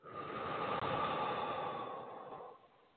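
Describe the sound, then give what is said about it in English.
A deep breath in and out, heard as one long, soft, breathy rush that holds steady and then fades away toward the end. “And big breath in, big breath out.”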